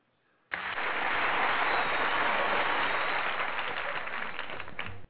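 Audience applause bursts in abruptly after a faint lead-in, holding as a dense, steady wash of many clapping hands for about four and a half seconds before cutting off sharply.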